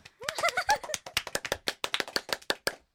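Brisk clapping from a small studio group welcoming a guest: many quick, sharp hand claps in a steady, slightly uneven patter that holds for the whole stretch.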